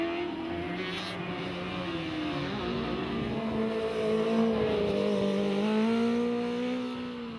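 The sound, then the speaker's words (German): A Formula Student race car engine drives at a competition on the Hockenheimring. It holds a continuous loud, buzzing drone whose pitch wavers up and down as the car accelerates and eases off. “Auch das Highspeed-Team Karlsruhe geht mit dem Rennwagen F102 an den Start”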